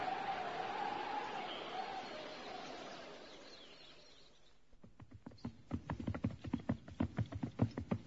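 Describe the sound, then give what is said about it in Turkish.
Hoofbeats of a horse carrying an approaching rider begin about midway, after a faint earlier stretch. They form a steady, rhythmic run of many clops that grows louder as it goes on. “İşte at üstünde biri bize doğru yaklaşıyor.”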